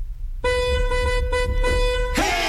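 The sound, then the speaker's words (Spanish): Car horns honking in the street: a loud, steady blaring tone starts after a short quiet moment, breaks off briefly midway, then resumes before a burst of harsher noise at the end. “Todo el mundo prevenido para tocar su claxon.”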